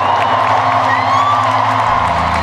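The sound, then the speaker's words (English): A crowd cheering in a huge church, a loud, continuous roar of voices with scattered whoops that holds steady for the whole stretch. “Yeah, as you can tell by the crowd cheering there, huge church.”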